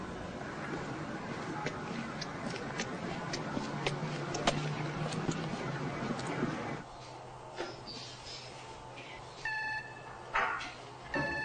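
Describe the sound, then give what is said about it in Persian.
An intercom buzzer rings at a building's front door. Steady background noise comes first, then a few short electronic tones sound in quick succession near the end. “میره طرف در ساختمان. زنگ میزنه.”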